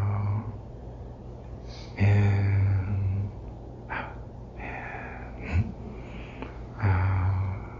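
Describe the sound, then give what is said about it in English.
Uneven breathing in and out: several irregular breaths of varying strength, some sharp and snorting, others soft and drawn out, separated by quiet pauses. “Well, in reality, your breath might be like this.”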